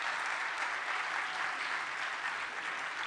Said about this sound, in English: And Jeff, so just give him a hand clap real quick, if you would